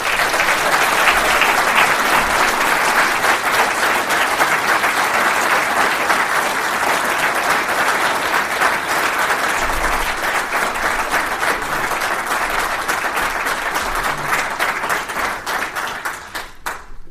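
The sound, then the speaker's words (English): Sustained audience applause welcoming a speaker to the podium at a political meeting; steady, dense clapping continues for the full length and thins slightly toward the end. “So, folks, would you put your hands together and welcome to the podium Mr. William Ross.”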